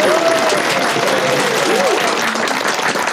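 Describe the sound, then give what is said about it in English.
A studio audience gives a round of applause for Delia Smith, a dense, steady wash of clapping that stays loud throughout, with a voice speaking over it. “A round of applause for Delia Smith.”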